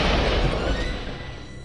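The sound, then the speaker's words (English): Gasoline bursts into flames after a side-impact crash test punctures a car's fuel tank, a loud, dense roar that holds steady and fades slightly toward the end. “At impact, a small hole was punctured in the tank. According to our experts, the pressure of the collision and the crushing of the gas tank forced gasoline to spew from the gas cap.”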